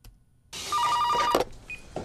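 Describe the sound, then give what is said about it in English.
A telephone rings in a drama scene: one short, loud burst of rapid warbling electronic trills over a low hum, cut off by a sharp clunk, then quieter rustling. “And in the morning, as he is getting set to tell her, they get a phone call, and it is Hoyt of Hoyt Foods.”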